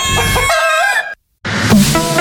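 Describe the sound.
A rooster crows loudly in a bright harmonic call, then after a brief silence a second burst of crowing and clucking follows.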